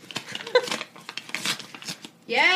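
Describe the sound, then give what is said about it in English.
An envelope being torn open by hand, with a series of short ripping and crinkling bursts of paper, followed by a voice speaking at the end. “So I'm going to open one. More than one mail? Yeah, we got two. Envelope sounds.”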